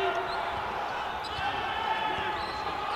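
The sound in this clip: A basketball is dribbled on the court during a game, its bounces faint and steady beneath continuous crowd noise.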